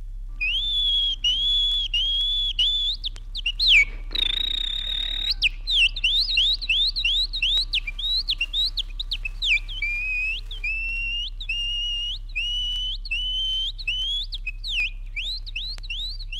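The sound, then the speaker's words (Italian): A Friulian peasant whistles an imitation of nightingale song from the hills of Rosazzo: many quick, high, rising chirps and trilled phrases in a steady rhythm, with a brief noisy burst near the start and a low steady hum underneath. “Contadino vero, egli ruba le note flautate ai rosignoli che sui colli di rosazzo si abbandonano alle loro inebrianti malie canore.”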